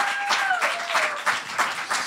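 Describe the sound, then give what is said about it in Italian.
Audience applause at a stand-up comedy night in a pub, a dense, steady patter of clapping throughout, with a brief whistle gliding downward near the start. “Ira Rubini, fate un applauso.”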